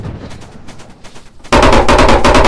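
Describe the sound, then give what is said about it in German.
Gunfire in a video game: quieter scattered shots at first, then a loud, sustained stream of rapid machine-gun fire. “Ja, der ballert. Scheiße! Der ballert hier ganz schön drauf, du.”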